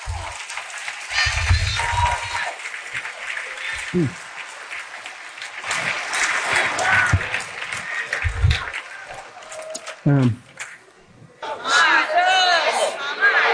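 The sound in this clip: A church audience cheers, shouts and claps in response to a preacher's call, a loud, sustained crowd roar. A voice speaks over the noise near the end.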